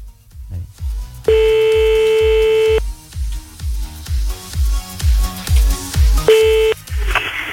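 Telephone tones sound during a redial: a long, steady, harmonic beep, then a shorter one later, over a low, rhythmic thumping pulse that repeats throughout.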